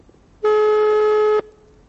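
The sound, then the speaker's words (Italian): A telephone ringback tone sounds while a call is placed back to someone. It is a single steady electronic tone lasting about a second, loud and clear, then cuts off into near silence. “mi tocca richiamarlo. Vedi a volte la frettolosità, la fretta. Richiamiamolo.”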